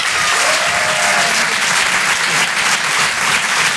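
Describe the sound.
Audience applause greeting a comedian at a stand-up comedy show: a short burst of loud, dense clapping that stays steady from start to finish.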